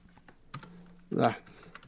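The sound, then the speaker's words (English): Keys tapped on a computer keyboard while entering numbers: a few soft, scattered clicks, then a brief louder cluster of keystrokes, all faint and quick. “Oops, I did 21.6. Oh, I can't type.”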